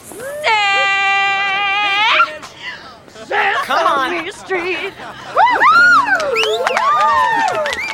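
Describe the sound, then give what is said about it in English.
A crowd cheers and shouts in a scene from the TV series My So-Called Life. Excited voices whoop and call out over sustained singing, with loud bursts coming in waves throughout. “And everybody's cheering for her.”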